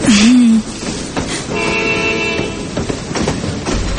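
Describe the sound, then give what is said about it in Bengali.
A train runs with a steady rumbling roar, and a sustained horn-like tone sounds over it for about a second in the middle before the rolling noise carries on alone. “আসলে ভেবেছিলাম ট্রেনটা বোধ হয় পেরিয়ে যাবে তাই আর কি দৌড়ে এসে ট্রেনটা ধরেছি তো তাই চা পাচ্ছি ও চিন্তা করবেন না এখন তো আপনি ট্রেন ধরে ফেলেছেন”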